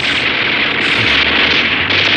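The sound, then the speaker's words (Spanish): A fighter jet diving into an attack fires its machine guns in a dense, loud, continuous roar of noise. No separate shots stand out, and no voices are heard. “El jet de combate se lanza en posición de ataque, haciendo funcionar sus ametralladoras. Las balas silban peligrosamente, casi tocando la cabina del jet intercontinental.”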